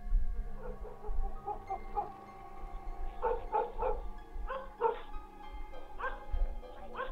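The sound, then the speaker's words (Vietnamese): A neighbour's dog barks in several quick volleys of sharp, high-pitched yips with short gaps between them, excited and fairly loud throughout. “Đúng lúc chó của nhà hàng xóm chẳng hiểu làm sao cắn lên rộn ràng.”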